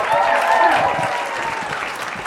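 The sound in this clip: Audience applause for the host at a live comedy show, steady dense clapping that stays loud and fades only slightly.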